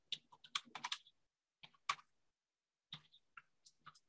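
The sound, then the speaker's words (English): Quick typing of a comment on a computer keyboard: dense bursts of clicks at the start, then a few separate short flurries of keystrokes with pauses between them. “And I will type one in real quick.”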